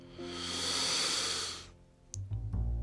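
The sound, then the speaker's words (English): A group takes one last deep breath in together during a guided meditation, heard as a long, smooth, breathy inhale that swells and then fades, followed by low murmuring tones. “Let's take one last deep breath in together.”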